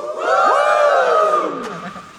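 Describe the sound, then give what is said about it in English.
An audience yells and cheers together. The loud, mixed shouts and whoops swell quickly, hold briefly and then fade. “Do a little yell if you've seen something over the last couple of days that made you lose your mind.”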